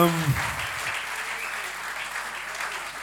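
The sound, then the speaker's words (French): Audience applause at a live concert in France: steady, dense clapping that holds at an even loudness for the whole stretch, with a voice briefly audible at the very start. “Vous pouvez les applaudir.”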